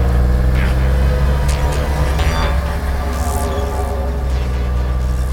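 A car speeds away during a chase, its engine roaring loud and continuous with a hissing rush throughout.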